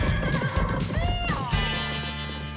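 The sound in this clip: A horse whinnies loudly as riders set off, one long shrill neigh whose wavering pitch climbs and then falls before a steady low sound carries on beneath it.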